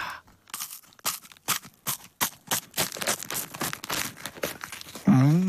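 Dry crunching and crackling from bites of a crispy brown sugar puffed wheat snack: many sharp bursts in quick, uneven succession. A brief voiced sound follows at the very end.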